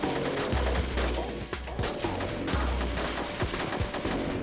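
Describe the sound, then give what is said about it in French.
Gunfire as robbers shoot from a vehicle's open rear door at police and a SWAT sniper returns fire on city streets: many sharp, rapid shots over a dense, rumbling background. “Puis, la porte arrière du véhicule s'ouvrit soudainement et les voleurs ouvrirent le feu sur les policiers. Un tireur d'élite de l'unité SWAT riposta leur coup de feu.”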